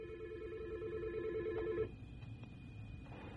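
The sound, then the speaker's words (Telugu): A telephone rings as a listener calls in to a radio show: a faint, buzzing, warbling tone runs steadily for under two seconds, then cuts off and leaves only low hiss. “Okay, ఒక శ్రోత phone చేస్తున్నారు, వారిని on air తీసుకున్నాక మనము మాట్లాడదాము.”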